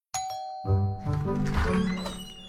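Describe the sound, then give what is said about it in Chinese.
A doorbell rings inside a house with a two-note ding-dong chime: a bright first tone, then a lower second tone. The ringing tones sustain and blend into a fuller wash of sound that lingers to the end. “说曹操曹操到，门铃响起”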